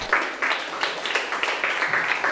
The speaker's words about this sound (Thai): ปรบมือให้เพื่อน